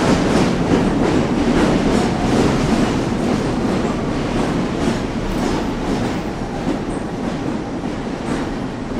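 A train pulls into a station platform with a loud, steady rumble and rhythmic clickety-clack of wheels on rails, continuing throughout with no voices.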